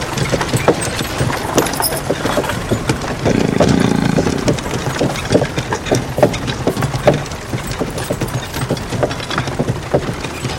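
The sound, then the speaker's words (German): A horse-drawn carriage races along, its rapid hoofbeats and rattling clatter running as a loud, dense, steady stream, with a rumbling swell midway. “Die Kutsche jagt in Richtung der Hügel.”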